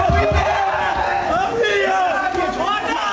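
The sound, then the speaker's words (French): Students at the Lycée d'Alzon in Nîmes cheer over their baccalaureate results, a dense roar of shouting and screaming voices so loud the microphone distorts, continuous throughout. “85,5% des élèves ont été reçus, dont ces Nîmois au lycée d'Alzon qui ont fait saturer le micro ici.”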